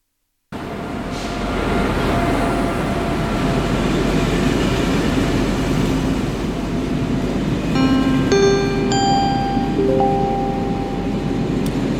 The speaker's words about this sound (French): Le Galaxy Express 99.9 à destination de la planète Rametal va bientôt s'arrêter en gare de Australoplanète. Prenez garde à l'ouverture automatique des portes.